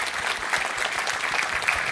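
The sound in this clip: Audience applause at the end of a talk before the question session: brisk, dense clapping with many overlapping sharp claps, steady and fairly loud for two seconds.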